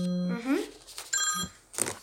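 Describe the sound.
A telephone rings on an outgoing call placed from a studio to a guest at a state parliament, a short steady tone at the start, followed by a voice.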